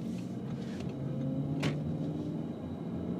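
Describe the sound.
Inside a moving car, a steady low engine and road rumble drones on evenly, with a brief hiss rising once partway through.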